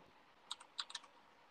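A few quick keystrokes tap on a computer keyboard, crisp but faint clicks bunched into one short burst of typing over a quiet hiss.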